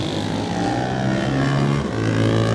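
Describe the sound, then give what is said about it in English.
A Paton 500 classic racing motorcycle engine roars loudly and continuously, its rich buzzing drone dipping slightly in pitch briefly before climbing again. “Burgo Racing Machine, the Patton 500. That's Sean Anderson, he's away. Sounds great, doesn't it?”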